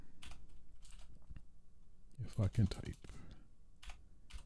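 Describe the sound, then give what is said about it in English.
Typing on a computer keyboard produces quick, irregular clusters of light key clicks, with a voice briefly murmuring partway through. “If I can type. I could type fast, but not accurate.”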